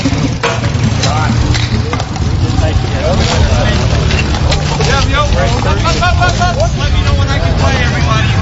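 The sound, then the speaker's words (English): Bike polo game on a hard court at a park in Little Italy: a steady, loud wash of rolling, rattling clatter with voices calling and chattering throughout. “That is the sound of bike polo. So polo, sport of kings, you take away the horses, you replace them with bikes, and you move the whole thing to a hard court.”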